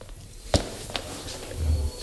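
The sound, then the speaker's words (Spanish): Footsteps of someone arriving at a press room after a football match, heard as a few sharp, separate footfalls over a low, steady room hum. No voices. “¿Qué viene corriendo o qué? Con los pasos y todo.”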